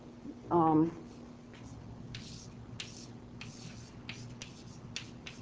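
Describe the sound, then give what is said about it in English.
Writing on a board during a lecture: several short, faint scratchy strokes spaced irregularly, following a brief burst of a voice. “And so let me just write it down.”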